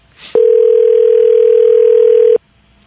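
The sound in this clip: A telephone rings through to a bar, heard as one loud, steady, unbroken tone that lasts about two seconds and then stops.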